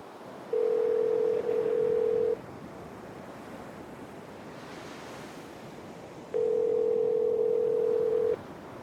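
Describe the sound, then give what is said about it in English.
Ringback tone of an outgoing phone call placed by a voice assistant: two long, steady, mid-pitched buzzes separated by a few seconds of quiet, over a low continuous background hiss. “Siri, call Teresa.”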